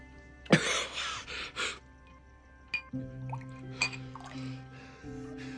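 Liquor poured from a bottle into a glass: a short splashing gush of liquid, followed by a few faint glassy clinks and drips.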